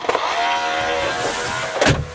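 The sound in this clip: A robot vacuum cleaner is switched on and drives across the floor. Its motor gives a steady whirring whine, with a short louder bump near the start and another near the end.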